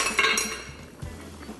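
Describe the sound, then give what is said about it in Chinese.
Meatballs stirred in a pot with a utensil give a few quick clinks and scrapes against the metal, followed by quieter shuffling of the pot's contents. “你再把它搅拌一下，”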